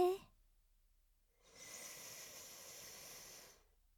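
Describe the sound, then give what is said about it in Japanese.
A slow, deep breath drawn in, a soft, steady, airy hiss lasting about two seconds, following a voice that trails off just before. “私とお兄さんの呼吸のリズムが重なって一つになっていきます。ゆっくりと息を吸い込んで、”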